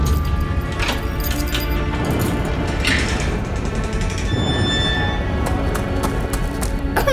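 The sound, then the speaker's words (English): Slavers charging out of the barracks: a loud, dense, unbroken rumble of many running footfalls with some crashing impacts mixed in. “Oh, the slavers from the barracks are running right at him!”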